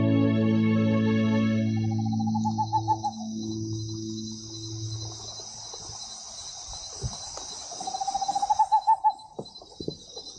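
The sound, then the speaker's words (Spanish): Great horned owl hooting: low, drawn-out hoots in the first half, two bursts of rapid higher trilling notes, and a constant thin high buzz like insects throughout. “canta la lechuza, canta la licucu, canta lentamente el ñacurutú, solito en la rama”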